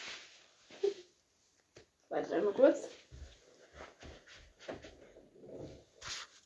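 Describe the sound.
A cupboard door being shut, heard as a few dull low thumps and knocks among excited voices talking in between.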